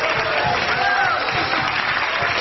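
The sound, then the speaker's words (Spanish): A church audience applauding during a sermon: loud, dense, steady clapping from many hands that continues without pause throughout. “¡Aplauda las iguales! ¡Aplauda! Yo voy a aplaudir por algunos que no quieren.”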